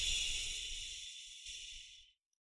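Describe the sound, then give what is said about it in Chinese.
A slow, steady hissing exhalation voiced as a drawn-out 'xu' breath sound in a breathing exercise. The soft airy hiss holds evenly for about two seconds, then cuts off into silence. “就是缓慢的呼气。呼的时候，比如说，嘘，”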